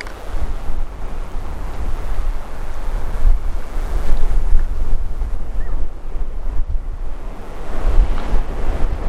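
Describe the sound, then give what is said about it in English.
Strong wind blows by the sea at Talisker Bay in Scotland, a continuous low roar buffeting the microphone over the wash of surf, swelling and easing throughout with no voices. “although the wind is really, really bad.”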